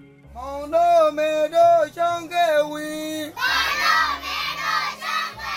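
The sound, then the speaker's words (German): Children at a school in a Rohingya refugee camp chant together in repeated sung phrases, then break into loud, overlapping shouting and crowd noise. “so klingt Schule im Rohingya-Flüchtlingslager.”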